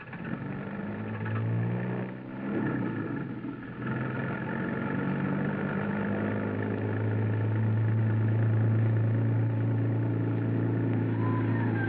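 A car engine runs while the car is driven, giving a steady low drone that holds throughout with some shifts in pitch and no voices.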